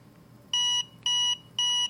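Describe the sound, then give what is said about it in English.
Three identical high, piercing electronic beeps from a device set to beep mode after its side button is pressed. They are evenly spaced, clean and steady, with quiet between. “same thing, except it now beeps instead of vibrates”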